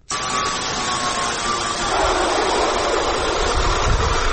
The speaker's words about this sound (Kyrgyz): Таң атпай короосунда мындай ызылдаган үнү угулган Сарыбай айылынын тургуну Казак Абдыкеев колундагы станоктору менен айылдаштарынын шаймандарын оңдоп берип жатат.